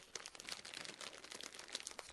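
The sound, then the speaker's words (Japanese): Crinkling of a snack packet of Okinawa sanpin-cha and salt flavour being opened, many quick crackly rustles that run steadily for about two seconds at a fairly faint level. “47都道府県の味、沖縄の味、沖縄伝統三品茶風味、沖縄のしまます塩ということで、ちょっと開けてみましょうね。”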